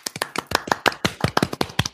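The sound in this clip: Hand claps, a quick run of many sharp, loud slaps in a slightly uneven rhythm, heard alone with no talk.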